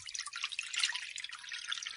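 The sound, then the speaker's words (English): Water trickling steadily into an oven tray, a faint continuous splashy patter with no pauses. “So we just need to fill a tray with water.”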